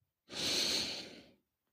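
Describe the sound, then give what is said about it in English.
A single long, soft, airy breath during a guided breathing exercise. It lasts about a second and is heard alone against silence. “Let's take a moment right now and just breathe. Breathe in. Breathe out. Breathe in.”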